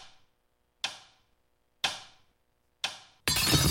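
A watch being smashed as a sound effect: three sharp, hard blows, each snapping out and dying away quickly, then a loud, sustained crashing burst at the end.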